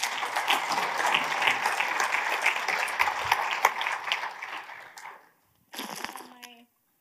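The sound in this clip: An audience applauds to welcome a speaker at a church gathering in Garden City. The clapping is steady and sustained for about five seconds, then stops abruptly, and a brief sound follows.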